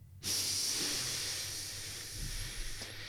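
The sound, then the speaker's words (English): A big, deep breath in: a steady, breathy inhale that starts abruptly and is drawn out for nearly three seconds, soft airy hiss with no talk. “Take a big breath for me.”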